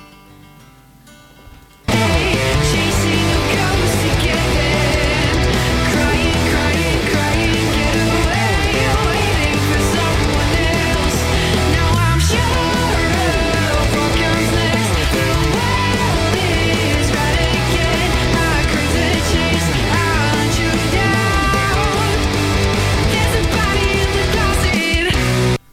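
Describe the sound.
Rock band music starts after a brief quiet moment and plays loud, dense and continuous, with a full guitar-and-drums texture sustained to the end.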